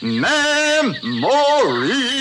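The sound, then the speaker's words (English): Animatronic tiki room birds singing, a continuous voiced warble that swoops up and down in pitch through two rising and falling phrases, fairly loud and alone. “Those amazing birds, they come to life before your eyes. They talk, they whistle, they tell jokes, they sing”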